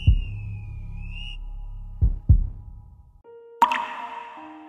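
Drops of water dripping: a few low, soft plops, with a steady whistle-like tone at the start and a brighter splashing drop near the end.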